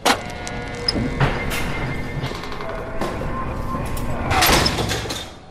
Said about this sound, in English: That's the sound of the San Quentin prison door slamming as my guest Earlonne Woods